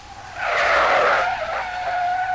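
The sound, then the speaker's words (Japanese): Tires of a black, heavy car screech as it brakes to a stop in the rain: a loud, high, sustained squeal lasting about two seconds that thins into a steadier tone. “キーッと甲高い音が聞こえ、一台の車が目の前に止まった。”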